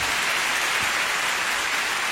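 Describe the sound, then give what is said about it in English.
Audience applause at a live show, a dense, steady wash of clapping that holds at an even level for about two seconds with no voices over it. “round of applause for Louis C.K.”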